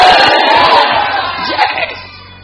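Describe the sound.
A church audience loudly shouts hallelujah together in response to a preacher's call, a dense burst of massed voices that holds strong and then eases off toward the end.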